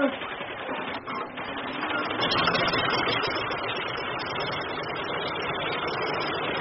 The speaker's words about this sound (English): Well, switch on while I turn the prop.